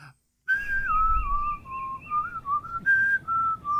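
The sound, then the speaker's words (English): A person whistles a tune alone: clear, bright, wavering melodic notes in a few phrases separated by short breaks. “I don't know if that's copyrighted. That's why I whistled it.”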